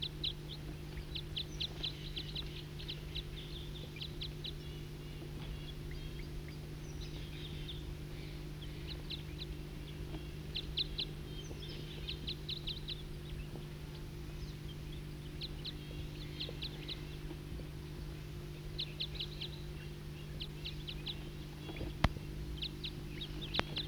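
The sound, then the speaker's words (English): A wild bird calling: many bursts of short, high chirping trills repeated at irregular intervals, faint over a steady low hum that runs throughout. “Start recording a wild bird.”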